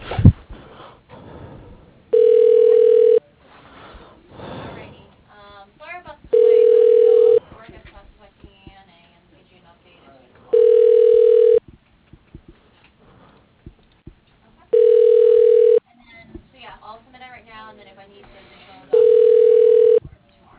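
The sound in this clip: A telephone call being transferred to voicemail, with five steady, mid-pitched ringback tones of about a second each, evenly spaced, and quieter sound between them.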